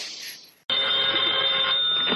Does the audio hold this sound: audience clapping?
no

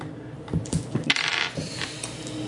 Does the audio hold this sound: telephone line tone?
no

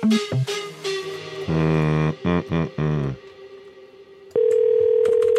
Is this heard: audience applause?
no

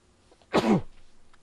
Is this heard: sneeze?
yes

